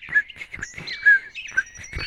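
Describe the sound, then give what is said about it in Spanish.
Song of a male pitojuan, a small short-billed bird perched in a eucalyptus: a quick, uneven run of loud, shrill chirps and whistled notes, sharply repeated several times. “Es sabido que los pitojuanes machos son una especie agrandada entre las aves, ya que en su canto expresa detalle de su virilidad.”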